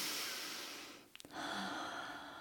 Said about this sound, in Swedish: Så att om jag sen tar ett djupt andetag